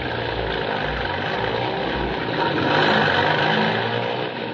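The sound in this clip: A jeep engine runs in a wartime radio drama set near the Owen Stanley Mountains. It gives a continuous, low, even rumble and swells briefly louder near the middle before settling back.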